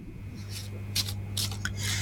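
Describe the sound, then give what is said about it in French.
A deck of cards being shuffled, a few short, crisp riffling rustles mostly in the second half over a steady low hum. “Alors, je mélange. Alors, je vais déposer les cartes et un stop quand vous le désirez.”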